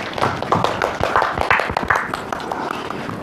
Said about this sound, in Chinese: 接下来我们掌声有请小哥哥。